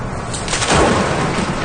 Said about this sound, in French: Là, ce que tu entends, c'est les coups de foudre.